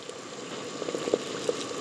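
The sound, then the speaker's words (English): Water at a rolling boil for cooking lasagna noodles gives a faint, continuous bubbling with a few slightly louder pops breaking through. “add the lasagna to the water now that we have it at a sort of rolling boil here”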